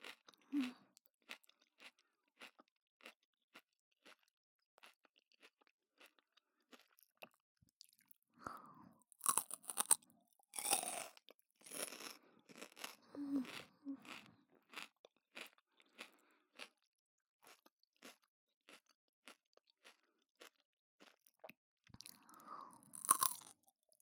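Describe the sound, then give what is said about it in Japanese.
Crunchy food is chewed with many crisp bites and grinding crunches in irregular bursts. The sound is quiet overall, with busier clusters in the middle and again near the end, and there is no talking. “いい歯ごたえ。”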